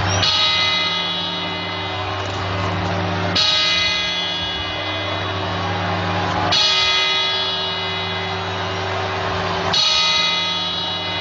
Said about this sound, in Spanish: vamos a poner la tele a ver si ya empiezan a las 12 campanadas